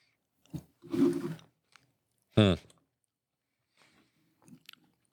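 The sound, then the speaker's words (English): Biting and chewing an Oreo cookie: a sharp crunchy bite and a few crisp chomps, then faint intermittent chewing. Brief murmured vocal sounds break in among the bites. “Just tastes like an Oreo.”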